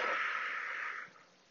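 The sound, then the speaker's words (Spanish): A single long, airy breath hisses out for about a second and then fades to quiet, part of a deep inhale through the nose and full exhale through the mouth during a guided relaxation exercise. “Y ahora te pido que inhales profundamente por la nariz y saques todo el aire por la boca.”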